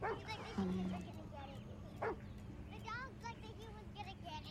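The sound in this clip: A dog yips, whimpers and gives a few short barks while playing with children, the high-pitched yelps rising and falling in quick bursts, faint throughout.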